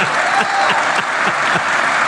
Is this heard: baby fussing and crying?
no